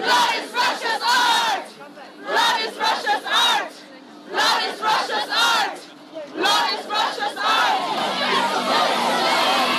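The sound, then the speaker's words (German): Pussy Riot and Femen activists, women's voices in unison, chant a protest slogan at the Russian pavilion, loud rhythmic shouted phrases separated by brief pauses, then a longer unbroken stretch. “Die Aktivistinnen skandieren Blood is Russia's Art.”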